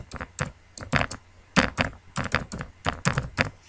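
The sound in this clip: Typing on a computer keyboard while entering an email address into an account sign-up form: many crisp key clicks in uneven bursts and short pauses, loud and clear with no talking.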